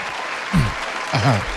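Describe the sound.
An audience applauds to welcome a guest, steady clapping throughout with two short bursts of talk over it.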